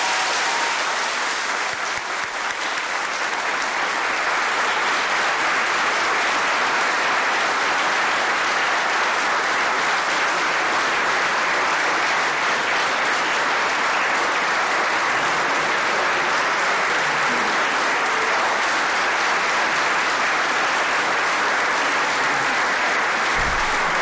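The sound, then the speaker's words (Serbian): Audience applause at a musical tribute event, a dense, steady and loud wash of clapping that continues without pause for about twenty-four seconds. “nismo merili i otprilike su tu isto dužine aplauza, tako niko nema od vas dvojice razloga da se ljuti i da bude uređen.”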